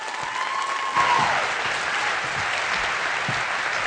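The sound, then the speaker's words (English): A church audience applauds to welcome a guest preacher. The clapping is a loud, continuous wash of many hands that stays steady from start to finish. “If you would put your hands together at all of our campuses, and would you welcome Clayton King?”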